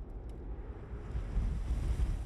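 Wind blows in a scene from the film Krampus, a low, steady rushing gust, faint and swelling slightly toward the end, with no voices.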